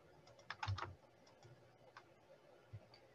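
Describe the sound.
Typing on a computer keyboard while an email address is entered into an online entry form: a quick burst of clicking keystrokes, then a few scattered, softer taps. The sound is faint and has no talk over it.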